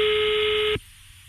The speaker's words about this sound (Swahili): Wacha nipigie Musau tena kwa sababu simu yake pia imekatika hapo.